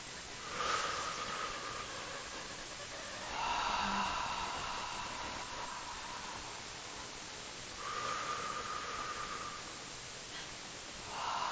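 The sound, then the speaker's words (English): Slow, deep breathing paced at five counts in and five counts out, heard as soft, airy hissing swells that rise and fade with quieter pauses between them. “let me lead you into 5 coherent breaths and then some silence.”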